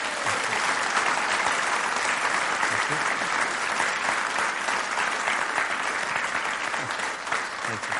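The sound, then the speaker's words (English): Audience applause in Belfast welcoming a guest speaker to the main event: a loud, sustained, dense wash of clapping that holds steady throughout. “I'd like you to put your hands together one more time, and a big Belfast welcome for Mr. Brian Burke.”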